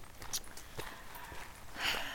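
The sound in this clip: Faint footsteps of people walking around a country park: a few soft, uneven steps spaced irregularly, quiet and low in level.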